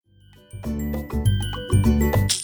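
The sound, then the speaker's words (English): A bright notification chime signalling a sale in an online store: a short run of ringing, tonal notes struck in quick succession, ending in a shimmering high flourish. “You already know that that's the sound of another sale on your online Shopify store.”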